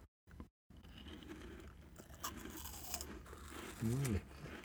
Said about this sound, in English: Take a bite of the chocolate starfish.